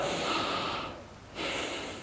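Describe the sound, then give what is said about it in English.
A deep breath is drawn in as a long, loud, airy rush of breath noise. It fades briefly, then another full breath follows. No talking is heard. “Take a big, deep breath.”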